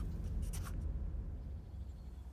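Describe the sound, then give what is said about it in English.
Pencil-like scratching of someone drawing a picture on paper: a few quick strokes early on, then near quiet with only a faint low hum. “He looks at the blank page for a moment, and then he starts to draw a picture. The picture becomes a comic book.”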